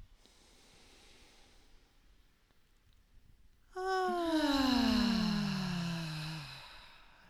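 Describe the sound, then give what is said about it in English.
A deep breath taken during a guided breathing exercise: a faint, airy inhale, then a loud, voiced sighing exhale whose pitch falls steadily before it fades out. No one speaks. “we're going to take our first deep breath. Inhale.”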